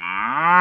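A cow gives a single sustained, low-pitched moo with rich harmonics. The bellow rises slightly in pitch and grows louder toward its end, heard alone.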